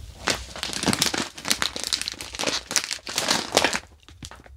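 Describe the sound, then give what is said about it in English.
A bag of extra dark, extra crispy pretzels being handled, crinkling in many quick, irregular rustles and crackles that thin out and fade near the end. “My first item is pretzels.”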